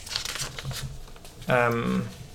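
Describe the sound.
Paper report cards rustle and crinkle as they are handled, a soft, brief shuffling followed by a voice talking.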